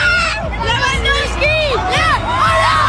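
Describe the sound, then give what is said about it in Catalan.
A huge, euphoric crowd fills central Barcelona's streets at the Barça league title parade, a dense, loud, unbroken roar of babble and cheering with shouts and whoops rising out of it. “750.000 persones, segons la Guàrdia Urbana, desborden durant 5 hores al centre de Barcelona per la rua de celebració del títol de Lliga del Barça. Públic embogit.”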